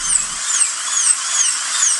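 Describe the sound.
A dentist's drill whines alone in a high, thin, sustained tone with faint pitch wavers and small repeated rises, steady in loudness throughout.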